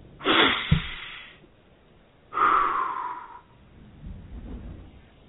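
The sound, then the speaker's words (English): Exaggerated breathing in through the nose and out through the mouth during a relaxation exercise: two long, loud, forceful breaths, then a much fainter third breath, with no talking. “let's concentrate on our breathing. In through the nose and out through the mouth.”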